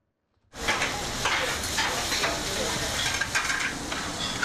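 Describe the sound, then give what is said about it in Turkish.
Pan-fried liver sizzling in a pan, a steady, loud, bright hiss and crackle that starts abruptly after a brief silence and continues without pause. “Tavada pişiyor, bir dakika içinde servise hazır hale geliyor.”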